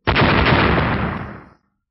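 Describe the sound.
Explosions from silver lightning bursting at the feet of a giant in a fantasy battle. A single loud, rumbling blast holds steady for over a second, then fades quickly away.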